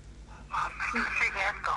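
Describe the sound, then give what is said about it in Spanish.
A phone rings with an incoming call, sounding as a series of short, bright tonal bursts over faint background hum. “Uy, me están llamando. A ver. Voy a poner altavoz.”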